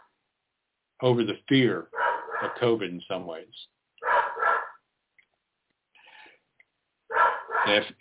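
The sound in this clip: A dog shut indoors barks at a squirrel, a few sharp barks mixed in with a person talking steadily in the foreground.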